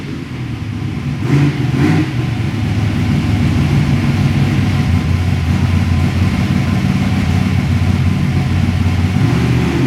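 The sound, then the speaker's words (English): Car engine revving as the throttle response is tested, a loud, sustained mid-pitched engine drone that holds steady for nearly ten seconds after a brief surge near the start. “Testing out the throttle response, I think, just making sure everything's going to be okay.”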